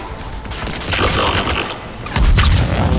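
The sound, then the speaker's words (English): Rapid gunfire in a video game, aimed at a robot enemy. A stream of shots with mechanical clatter runs throughout, then turns into a louder burst with deep booming impacts near the end. “The robot doesn't seem to mind me shooting at it.”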